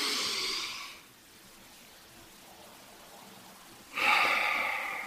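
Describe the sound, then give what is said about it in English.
Slow breathing, in through the nose and out through the mouth: two long, airy, rushing breaths separated by a quiet pause of about three seconds. “I like to breathe in my nose and then out my mouth, but you can kind of alternate.”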